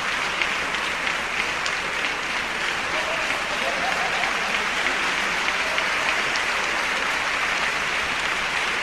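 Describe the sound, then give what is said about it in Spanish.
Sustained audience applause, an ovation for the orchestra at a symphony concert as sections of musicians stand. The clapping is a dense, steady roar of many hands and holds at an even level throughout, with no single claps standing out. “En ese momento se levantan los metales para recibir la ovación.”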